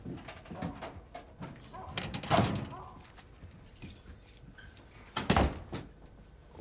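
A house door being opened, heard as two louder bursts of clattering and clunking with lighter handling noises in between, no voices.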